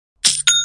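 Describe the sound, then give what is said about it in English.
Online store sale notification chime: two quick, bright electronic dings, the second leaving clear tones ringing on briefly. The chime is loud and stands alone. “You hear that sound? You should know that sound by now, young and profiters, but in case you don't, that's the sound of another sale on Shopify”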